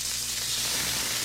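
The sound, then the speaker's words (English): Smash burgers sizzling on a hot surface, a steady, bright hiss of frying that holds at an even level throughout. “Fresh, juicy, award-winning smash burgers are sizzling right now at JC's North on the corner of Rockton and Riverside.”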